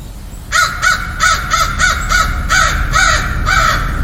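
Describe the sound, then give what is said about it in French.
Carrion crow cawing, a rapid series of harsh, hoarse calls repeating at a brisk uneven pace over a steady background hiss, loud and without voices. “on chipote un peu on chipote ça c'est une corneille”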